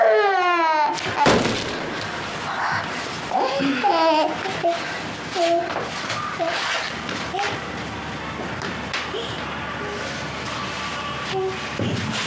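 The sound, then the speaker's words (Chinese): An infant cries in loud, wavering wails that are strongest at the start, then continues in shorter whimpering bursts while an adult voice talks over it. “哭，就知道哭，你哭吧。”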